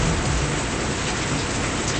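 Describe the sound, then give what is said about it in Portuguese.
A heavy downpour of rain: a dense, loud, steady hiss of falling water, continuous and unbroken throughout, with no voices. “uma chuvada descomunal, categoria.”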